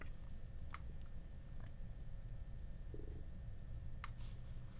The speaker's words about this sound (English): So this is the green button here in order to create an ad. So we're going to click on create an ad.